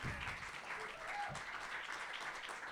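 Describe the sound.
Audience applause welcoming speakers at an event with immigration lawyers, a dense, even patter of many hands clapping throughout, fairly faint.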